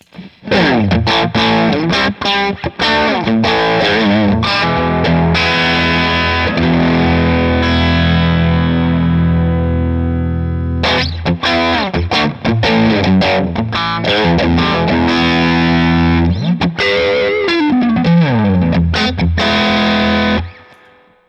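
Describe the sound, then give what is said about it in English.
Electric guitar through a Copper Sound Strategy preamp used as a clean boost, pushing the amp into a slight grind; loud, continuous ringing chords and picked notes with a warm, lightly overdriven edge, no voices. “And now I'll turn on the Copper Sound just so you can hear what that sounds like.”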